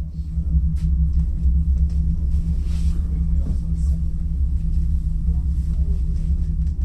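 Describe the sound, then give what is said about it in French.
The Aiguille du Midi cable car near Mont Blanc climbing the mountain, heard as a steady, heavy low rumble and mechanical hum with faint rattles on top. The sound stays constant throughout. “Ce que vous entendez, c'est le son du téléphérique.”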